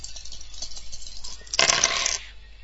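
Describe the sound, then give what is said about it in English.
Dice roll in a computer dice game: a soft rattling patter builds into a bright, loud clatter burst lasting about half a second, which then dies away quickly. “Press the space bar to roll the dice.”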